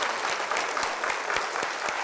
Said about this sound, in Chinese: 我們要做一樣嘢，我們為坐喺度嘅所有坐喺度嘅女士，我們鼓掌多謝佢哋